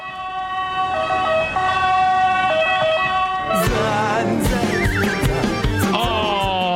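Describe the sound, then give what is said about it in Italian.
Ambulance siren sounding loudly: steady siren tones at first, then wavering wails joined by vehicle noise and short horn toots. “Arriva l'ambulanza! A ve le spiegate! Eccola qui!”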